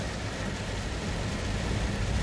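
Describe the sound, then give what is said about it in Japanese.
Heavy rain falls as a steady, even hiss with no distinct drops or breaks, fairly faint throughout. “ものすごい雨が激しくなってきた大丈夫かな”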